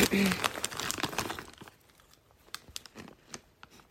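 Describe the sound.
Peanut ring snacks being eaten from a crinkly bag: loud crinkling and rustling of the packaging at first, then fainter scattered crunchy clicks.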